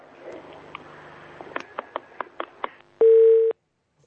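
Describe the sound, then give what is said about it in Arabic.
Knocking on a telephone during a call: a quick series of several evenly spaced taps, followed by one steady keypad beep, with faint line noise. “بيخبطوا على التليفون ولا ايه؟”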